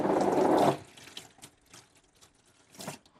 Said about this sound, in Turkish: Ben şimdi ellerimi yıkayayım.